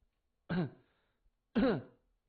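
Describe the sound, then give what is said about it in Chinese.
A man forcefully clears his itchy throat twice, two short, rough, voiced bursts separated by about a second of quiet, with no other sound around them. “金荣突然觉得喉咙痒痒的，没办法，他只好使劲的清清嗓子。”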